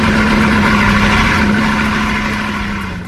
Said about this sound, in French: Et puis une Bugatti est testée avant d'être livrée au client. Direction pour cela l'aérodrome de Colmar où des pointes à plus de 300 km/h seront réalisées.